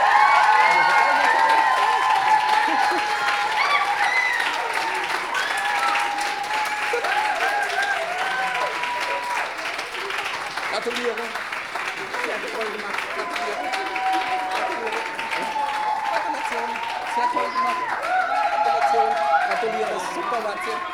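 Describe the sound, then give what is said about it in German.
An audience gives closing applause for everyone who took part: sustained, dense clapping that stays loud from start to finish, with voices and cheers carrying over it. “Das einfach noch einmal für alle, die hier mitgemacht haben, einen schönen Abschlussapplaus.”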